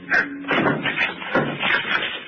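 A tall white locked cabinet is smashed open, giving a few heavy, dull blows with rattling, cracking noise between them in an irregular sequence.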